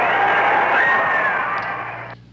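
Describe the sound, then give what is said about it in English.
Large crowd in Dublin cheering President Kennedy in 1963, a loud, sustained roar that tapers off slightly before cutting away at the end. “President Kennedy receiving a tumultuous welcome in Ireland.”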